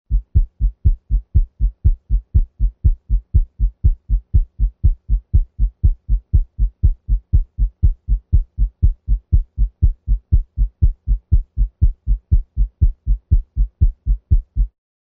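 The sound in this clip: Rapid heart sounds heard through a stethoscope at the aortic area, at 120 beats per minute, where S2 is louder than S1. Many steady, low thumping beats follow one another in an even, fast rhythm with no talk.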